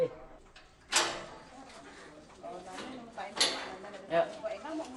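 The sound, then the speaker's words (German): Metallic clanks of a lock being unlocked on a barred cell door where a mentally ill man is kept chained in Bali, Indonesia: a few sharp rattling clicks and clunks stand out, with quieter scraping between them. “Sein Sohn öffnet das Schloss.”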